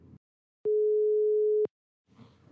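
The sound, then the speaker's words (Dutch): A telephone ringing tone while a call is placed: one steady, pure beep about a second long, with brief faint noise before and after it. “dus daarom zou ik zeggen: ik ga nu bellen”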